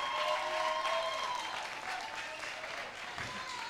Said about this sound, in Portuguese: Palmas para os novos talentos.